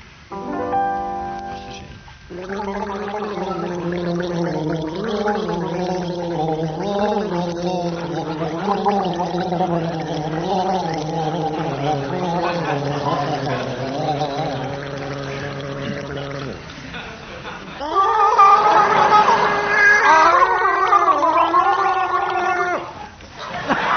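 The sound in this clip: Two men gargle water in a game played before a studio audience: a long, warbling, voiced gargle with a wavering pitch, then after a brief pause a second, louder and higher gargle.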